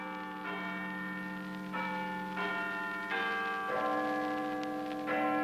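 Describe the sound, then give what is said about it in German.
Big Ben's clock bell striking eight o'clock in London, several deep, resonant strokes at a steady, unhurried pace, each ringing on with a long humming decay that overlaps the next. “Guten Abend, hier ist der Londoner Rundfunk. Big Ben hat 8 Uhr geschlagen.”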